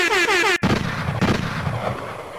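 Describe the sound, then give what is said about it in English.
A single sharp gunshot sound effect abruptly cuts off a blaring, wavering horn, followed by a sustained lower rumble. “Damn, somebody shot the horn guy? And he won't be coming back.”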